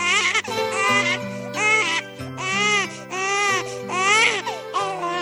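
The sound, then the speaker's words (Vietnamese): An infant crying in loud, repeated wails, each cry rising and falling in pitch, continuing steadily over soft background music. “Con khóc.”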